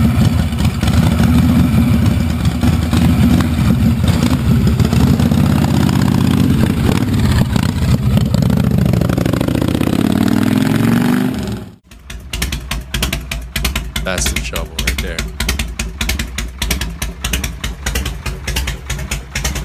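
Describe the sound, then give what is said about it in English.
A motorcycle's Evo engine runs through pipes that give it a hollow, gurgly tone. A steady, loud, low rumble swells and eases in revs, then cuts abruptly to a rapid, choppy, pulsing note. “There's your Evo.”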